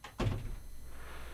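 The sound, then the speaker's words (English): A door closing with a single dull thunk, followed by a low, steady background hum. “Gosh, you can hear doors. You can hear doors close with this.”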